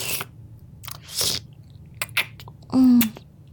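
Wet licking and smacking of a tongue working over a large candy, a few short moist bursts spread across the moment, moderately loud with nothing else around them.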